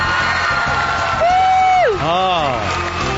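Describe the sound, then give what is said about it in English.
A studio audience cheers loudly and without a break, with high whoops that swoop downward in pitch over the crowd noise. “Great. Loved it. Now that's an audience. I just want to listen to that for like 20 minutes.”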